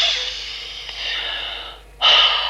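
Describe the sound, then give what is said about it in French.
Cold, icy air drawn in through the nose high above a mountain in a balloon: a long, breathy nasal hiss, then a sharper, louder sniff near the end. “Je mets le nez dans l'air glacial et j'inspire.”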